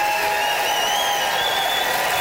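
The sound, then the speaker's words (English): Audience voting by applause at a debate: a continuous, dense roar of clapping and crowd noise that holds an even, loud level throughout, with no speech over it. “It is time to vote, everybody. By applause, who was buoyed by Martha's pro-boycott brouhaha, Marta Chavez?”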